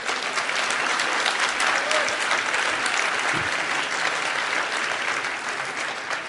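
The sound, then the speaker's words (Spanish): Applause from an audience: a dense, steady wash of many hands clapping that continues for the whole stretch, easing only slightly toward the end. “Ese aplauso no le ha gustado nada a Rajoy”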